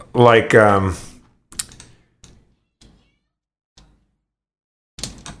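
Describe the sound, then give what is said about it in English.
Typing on a computer keyboard: a few sparse, separate key taps with gaps of silence between them, after a voice speaks briefly at the start. “I'm typing in boatswain, but it's not coming up.”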